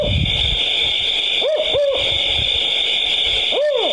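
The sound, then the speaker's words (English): Three owl hoots from a Canadian owl, two close together and then one after a pause, each a short rising-and-falling call over a constant high-pitched hiss. “here's the sound of the Canadian owl.”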